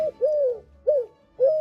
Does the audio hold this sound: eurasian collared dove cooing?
yes